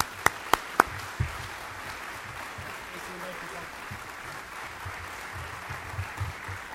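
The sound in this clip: An audience applauds to welcome a speaker at a Nebraska broadcasters' association event. The soft, steady clapping is faint, with a few sharp knocks at the start.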